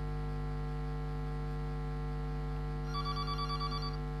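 An incoming call makes a telephone ring in one brief burst of rapid, pulsing ring tones near the end. A steady low electrical hum runs underneath throughout.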